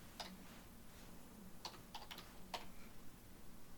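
Scattered keystrokes on a computer keyboard: a few sharp clicks at irregular intervals, fairly faint over a steady low hum, with no talking.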